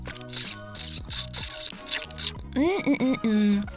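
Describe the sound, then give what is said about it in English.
Wet mouth noises made close to a microphone: moist clicks, smacks and squelches mixed with short voiced, tonal sounds that swell louder near the end. “Why my mouth makes so much noise?”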